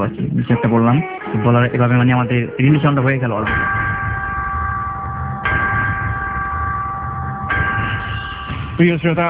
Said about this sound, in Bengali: ছোট্ট বিরতির শব্দ শুনতে পেয়েছি, আমাদেরকে বিরতিও নিতে হবে, খুব ছোট্ট একটা বিরতি, মাত্র 3 মিনিটের বিরতি।